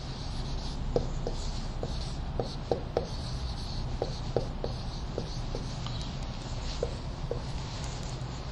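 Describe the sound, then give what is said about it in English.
Writing sounds as a lecturer notes down a point: soft scratching with many short, irregular taps and strokes, fairly faint and heard alone. “So let me write that down.”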